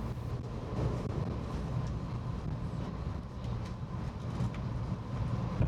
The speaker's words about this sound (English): For your safety, we ask you remain seated until the train comes to a complete stop.